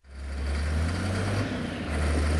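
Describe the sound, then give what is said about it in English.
A yellow earth mover works near Monrovia airport, turning an overgrown field into a gravel foundation. Its engine gives a loud, continuous low drone that swells slightly, with no voices over it. “Near the Monrovia airport, a yellow earth mover is transforming what used to be an overgrown field into the gravel foundation for an American field hospital.”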